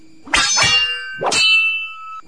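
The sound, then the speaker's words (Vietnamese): Weapons clash in a fight: a few sharp metallic clangs, two close together and another shortly after, each ringing on with a bright, shimmering tone as it fades. No voices. “Bỗng nhiên ở góc phía bắc loáng thoáng nghe có tiếng binh đao giao đấu truyền lại.”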